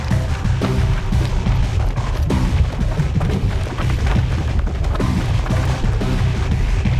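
Explosions boom through a film scene as a loud, continuous rumble broken by many sharp, heavy bursts.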